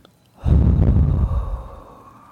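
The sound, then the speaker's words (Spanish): A deep breath drawn in through the nose and let out through the mouth, heard as one long, breathy rush that starts abruptly and loud, then slowly tapers off, with no talking. “regalarnos una pequeña respiración profunda donde vamos a inhalar aire por la nariz y vamos a exhalar por la boca.”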